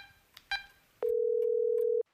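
A telephone is picked up: a few faint handling clicks and a knock, then a steady mid-pitched line tone sounds alone for about one second before cutting off.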